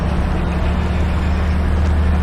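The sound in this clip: A car is driven with a steady, low engine rumble that stays even and unbroken, and no voices are heard.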